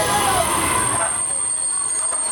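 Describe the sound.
A passenger train arriving from České Budějovice makes a loud rolling rumble of wheels on the rails, with a thin, high metallic squeal held throughout. The low rumble thins out and eases over the final second.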